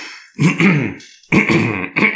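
Throat clearing from a person with something stuck in the throat: three harsh, guttural rasps, the first two longer and the last one short, with no speech.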